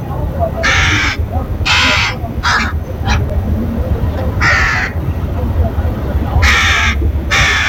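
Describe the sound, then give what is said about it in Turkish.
A sick crow gives harsh, hoarse caws in a string of uneven bursts, some long and some short, loud over low, steady talk running underneath. “Bitlis'in Adil Cavaz ilçesinde 40 yılı aşkın süredir kasaplık yapan Turan Zeybek, bir hafta önce dükkanının önünde hasta bir karga buldu.”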